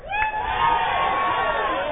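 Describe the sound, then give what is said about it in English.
A church audience shouting praise: loud, sustained cries and voices rising together in a continuous burst of crowd noise. “Somebody give God a shout.”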